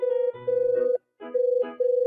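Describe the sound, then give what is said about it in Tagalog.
A telephone rings with an incoming call: an electronic, warbling tone that pulses rapidly. It plays in two phrases separated by a short silence, clear and alone. “si Joshua tumatawag ah”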